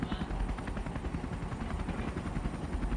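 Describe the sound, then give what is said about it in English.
A helicopter in a video game gives a loud, steady rotor drone with a continuous throbbing chop that lasts the whole clip, with no clear talk over it. “Oh, you're opening the door to the helicopter?”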